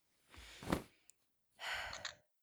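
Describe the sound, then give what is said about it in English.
Two soft, airy breaths are heard alone, a slow deep exhale among them, taken while holding a camera to shoot. “Take a deep breath and shoot on a slow exhale.”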